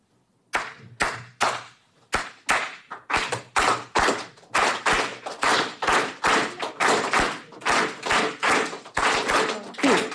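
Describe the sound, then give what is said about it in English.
Sharp hand claps beat out the Cuban clave rhythm, a repeating syncopated pattern of many crisp claps that keeps going steadily for several bars, heard on its own with no talk. “I don't know if you know anything about Cuba. It has this beautiful thing called clave. It sounds like this.”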